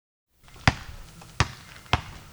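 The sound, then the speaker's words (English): A basketball bouncing before a shot: three sharp, punchy thuds, evenly spaced about half a second apart, each standing out clearly over quiet background noise. “Okay, one more lap for the road. Come on, make that basket and let's hit the road.”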